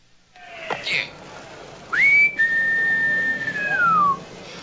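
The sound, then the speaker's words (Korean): Whistling into a house door intercom in Naples: a brief rising blip, then one long, steady, fairly high tone that slides downward at its end, clear and loud above faint background noise. “알바로의 집 인터폰에 대고 마테오는 휘파람을 봅니다.”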